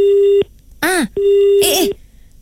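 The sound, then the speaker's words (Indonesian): A telephone busy tone sounds after the line suddenly cuts off. Two steady, mid-pitched tone bursts alternate with a wavering, wailing voice. “Tiba-tiba putus pula.”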